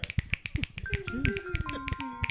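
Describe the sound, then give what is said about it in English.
Fingers snap in place of applause: a quick, irregular run of about a dozen sharp, crisp clicks, fairly faint, with low voices murmuring underneath. “I gotta click that one out. That's what we do. We only do clicks here. There ain't no claps.”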